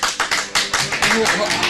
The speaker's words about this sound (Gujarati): ચાલો અમે બધા તમને તાળીઓથી માન આપીએ